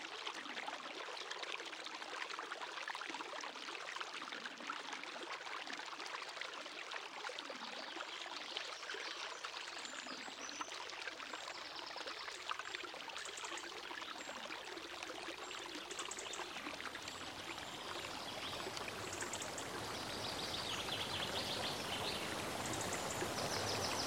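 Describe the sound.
A river flows with a steady, broad rush of water that holds an even loudness throughout, with no voices over it.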